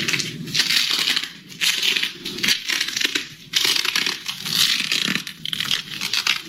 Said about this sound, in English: So I bought these super cute patent leather, they're not leather, but looking leggings. There's just one problem. When you walk,